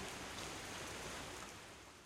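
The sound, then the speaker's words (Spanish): Rain falling during a hike at a crater lake on a volcano: a soft, steady hiss of many drops that eases slightly toward the end, with no voices. “But then, empieza a llover. It starts to rain.”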